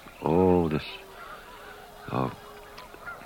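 Geese call as they fly low over a house on a cold, fog-bound day: two loud nasal honks about two seconds apart, followed by a fainter call, over a quiet, steady background.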